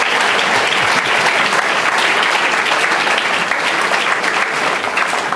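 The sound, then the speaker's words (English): Audience applause at a live event on climate: steady, dense clapping from a crowd fills the whole clip at an even, loud level without a break. “Let's give them a round. Thank them for getting through that climate closet.”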